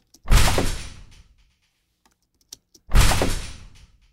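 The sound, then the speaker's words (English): A freezer door layered with a garage door produces two heavy, low-ended thuds. Each one decays over about a second, and a few faint clicks fall in the quiet gap between them. “So the specific freezer door was this one, which had some nice kind of low end to it. And I didn't do anything to it. I just kind of layered it with my initial garage door.”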